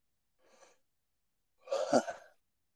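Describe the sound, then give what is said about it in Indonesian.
A person yawning: a faint breathy intake followed by a louder, drawn-out yawn with a rough voiced quality, fading out at the end. “Mulai menguap, menguap.”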